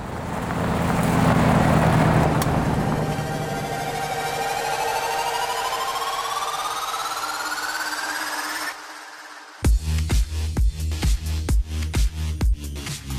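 A black rental car drives off, its steady road roar carrying an engine whine that climbs in pitch for about nine seconds. The sound then cuts abruptly to a loud, pulsing rhythmic thump.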